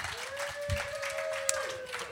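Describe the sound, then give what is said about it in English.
Applause from the audience at a service industry trivia night at Hyena's Comedy Nightclub in Dallas, Texas: a steady, moderately loud wash of clapping and crowd noise with no single clap standing out. “Let's a round of applause. Come on.”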